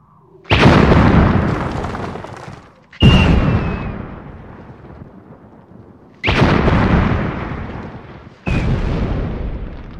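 Four fiery explosions conjured by Tim the Enchanter in the Monty Python film. Each is a sudden loud blast that decays into a long, rolling rumble before the next one erupts.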